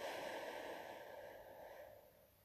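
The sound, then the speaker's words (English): A faint, long, airy breath during a walking cool-down in a workout keeps a steady hiss that slowly fades. “Take those deep breaths in through the nose. Out through the mouth.”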